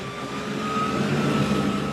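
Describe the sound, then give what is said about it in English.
A motorboat engine thrums steadily on the Colorado River as blue-green water churns below: an even, continuous drone with a faint steady whine, no voices. “Back on the Colorado River, as blue-green water churns under the thrum of a motorboat, Dennis Smolt”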